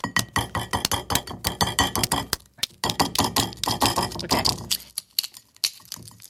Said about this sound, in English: The outside of the egg, I would say, is like this light gray bluish hue with some darker spots. So I'm gonna crack mine.